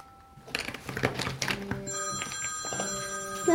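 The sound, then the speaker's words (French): A telephone rings with steady, sustained electronic tones that start about halfway through and stay fairly faint, with no one speaking. “ton téléphone qui sonne. Oh, c'est pas grave, ma chérie, laisse-le sonner”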